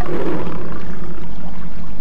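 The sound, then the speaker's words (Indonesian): A tiger roaring: a deep, rough, rumbling growl held steadily for about two seconds, loud and alone with no talk. “suara harimau itu”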